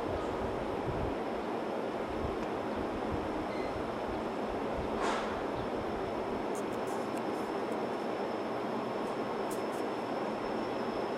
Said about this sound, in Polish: Pociąg SKM linii S1 ze stacji Otwock do stacji Warszawa Zachodnia wjedzie na tor 20 przy peronie 6.